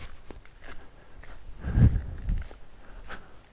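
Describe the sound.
Faint footsteps walk through a forest at night in the Black Mountains: soft, uneven crunching steps with a few heavier low thuds in the middle, and no talking.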